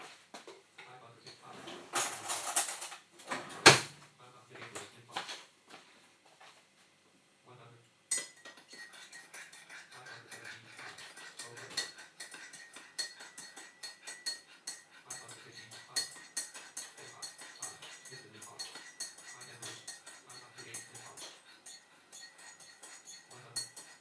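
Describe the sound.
Cutlery clinks and clatters while a spoon is fetched from the kitchen. Many light metallic clinks come in irregular bursts throughout, with a sharper clatter near the start.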